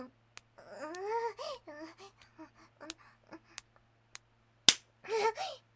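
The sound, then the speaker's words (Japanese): A sharp slap on the buttocks cracks out once, loud and sudden, after a stretch of breathy, wavering vocal sounds, with more vocalizing right after it. “こら、お尻叩くな。”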